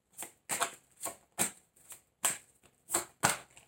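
Tarot cards being shuffled and drawn: a series of short, crisp papery riffles and slaps in an uneven rhythm, fairly soft, with no talking.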